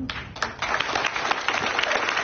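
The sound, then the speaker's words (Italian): A crowd applauds a Pulitzer-winning Washington Post journalist with dense, steady clapping that holds at an even level for about two seconds. “Questo è l'applauso per la giornalista del Washington Post Anna Nathanson, che ha vinto il premio Pulitzer.”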